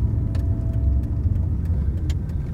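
A car engine gives a low, steady rumble while driving toward an indoor parking garage at a home improvement store. A few faint clicks and rattles sit over the drone, with no talking.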